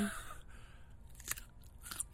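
Crunching on a raw carrot from a veggie pack, a few faint, crisp bites and chews with soft gaps between.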